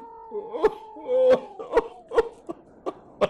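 A man sobs in a radio drama, letting out a series of choked, wavering wails broken by sharp gasping catches, in uneven bursts that grow shorter toward the end.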